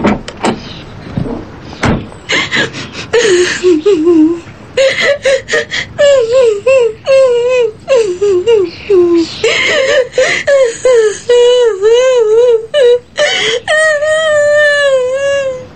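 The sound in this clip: A woman cries and sobs beside a car stopped at the mouth of a lane, in long wavering wails broken by choked gasps that repeat many times, loud and almost continuous throughout.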